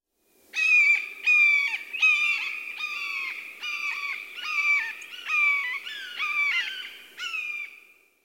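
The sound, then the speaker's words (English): Red-shouldered hawk calling: a long series of loud, high, clear kee-ah notes, each slurring slightly downward, repeated at a steady pace with no other sounds. “Red-shouldered Hawk.”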